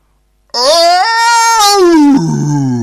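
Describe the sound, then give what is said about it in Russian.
An eerie cat scream pierces the silence, a loud, shrill, wailing yowl that climbs in pitch, holds, then drops abruptly into a lower, rougher moan, heard alone for about two seconds. “Это был самый жуткий кошачий крик на свете. И он заставил всех подпрыгнуть на месте.”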